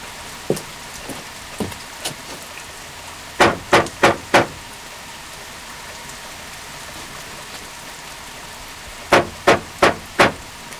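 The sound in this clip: Someone trying to force open a door at a night shelter in a summer bathing hotel: two bursts of four heavy, evenly spaced knocks, with a few lighter taps before them, over steady rain.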